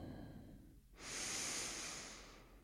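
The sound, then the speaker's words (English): Deep breath in during a guided yoga breathing exercise: one slow, soft, airy inhale that swells and gently tapers, faint and alone after a brief pause. “just take a moment to close your eyes and let's take a full breath in.”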